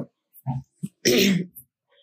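A man clears his throat: a few short, soft grunts lead into one longer, harsh, rasping clearing, then a faint trailing breath.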